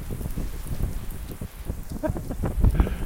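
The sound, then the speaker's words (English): Wind picks up outdoors as the first few raindrops begin to fall, heard as a loud, rough, continuous rumble of gusts buffeting the microphone that swells toward the end. “And the wind's picking up, a little bit wet. A few drops here and there.”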